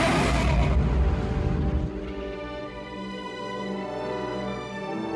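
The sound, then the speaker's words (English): Millennium Falcon spaceship engines racing in a Star Wars radio drama: a loud, rough low roar for about two seconds gives way to a steady droning hum with layered whining tones that holds to the end. “Unable to escape into hyperspace, the Millennium Falcon is now locked in a desperate race against Imperial warships.”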